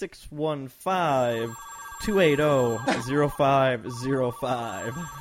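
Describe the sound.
A telephone ringing sound effect plays under voices, with steady electronic ringing tones running through most of the few seconds.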